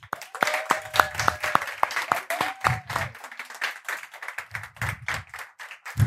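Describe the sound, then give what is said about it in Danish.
Sustained applause from an audience as an art association receives an award, with many quick, overlapping claps that come in dense bursts, along with a few brief tonal sounds. “Giv en stor hånd til Helle Berndt fra Kunstforeningen Gamle Strand.”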